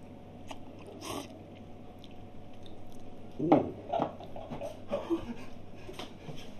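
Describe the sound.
Someone eats thin-noodle spicy ramen, making a few soft bites and chewing and slurping bursts over a low steady hum, with no talk.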